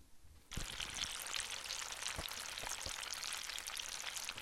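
Bacon sizzling in a pan: a steady, hissing fry starts abruptly after a brief quiet moment and carries on evenly, dotted with scattered pops and crackles, fairly faint and without talk.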